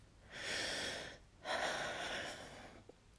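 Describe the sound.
A person takes one deep breath, softly. A long airy inhale is followed, after a brief pause, by a longer exhale.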